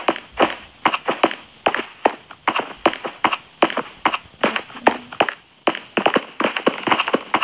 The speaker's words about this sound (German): Das ist ein Eisbär. Ich laufe einfach durch ihn durch.